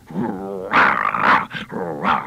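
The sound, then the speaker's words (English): A human voice imitates a big bulldog: a rumbling growl, then a few loud, rough barks in quick succession, with no other sound around them. “This is like a little dog would say, I'm a little dog, and this is the voice I would give to him. And a bigger dog would be a bigger bark.”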